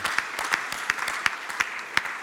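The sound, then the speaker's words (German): Rhythmic applause rings out during a church service, a steady beat of sharp accented claps with lighter claps falling between them. “Komm, ist noch ein Applaus wert. Das Wort Gottes zu Ehren.”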